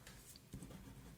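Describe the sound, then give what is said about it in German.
Faint pen scratching as large letters are written on a paper note, a few soft strokes, quiet and alone. “So, ich schreibe es mal ganz groß auf meinen Zettel.”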